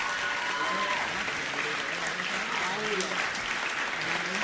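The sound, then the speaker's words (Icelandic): Sustained audience applause at a congratulatory gathering, dense clapping with a steady level and voices faintly audible within it. “Já, já, gefið þeim gott klapp, þegar það alveg fyllilega skilur.”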